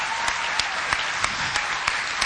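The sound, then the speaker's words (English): A church audience applauds a choir with brisk, steady clapping, a few sharper claps standing out from the even patter, with no talk. “Let's give them one more hand.”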